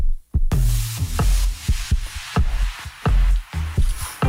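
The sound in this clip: A human heartbeat: deep, loud, low thumps repeating in a steady rhythm, heard alone without any voices.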